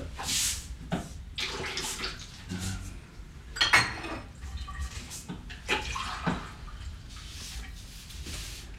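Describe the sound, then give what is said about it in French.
Water poured into a drinking glass: splashy, trickling bursts of water mixed with light clinks of glassware, at a moderate, uneven level with no talk. “Tu veux un truc à boire euh, bien un, petit verre d'eau, s'il te plaît.”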